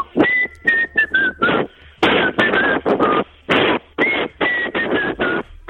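A man whistles a tune through pursed lips in breathy phrases of short, wavering notes, separated by brief pauses.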